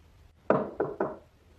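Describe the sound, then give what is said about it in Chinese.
Knocking on an office door at night: three knocks, the first on its own and then two quicker ones, moderately loud, with no voices. “晚上林浩在办公室里没走，有人过来敲门。”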